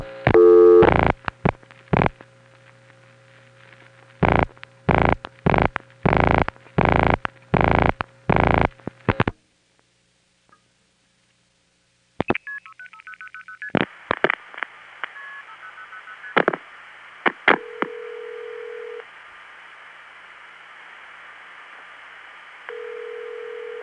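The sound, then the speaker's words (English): Multi-frequency signalling tones on a Long Island Crossbar 5 telephone line: a rapid string of short, loud two-tone beeps, then a silent gap and line clicks, followed by further tones and a steady held tone. “if we pick up my Long Island Crossbar 5 line and make a similar call, you get to hear two strings of MFs.”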